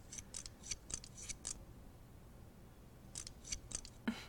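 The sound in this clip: Scissors cutting hair during a haircut: a quick run of crisp, quiet snips, a pause of over a second, then another short run of snips ending in one slightly louder cut.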